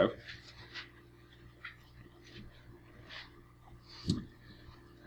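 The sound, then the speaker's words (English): Writing on a board, a few short scratchy strokes spread out with pauses between them, quiet and fairly soft. “I'll write down the board. Leviticus 25:25.”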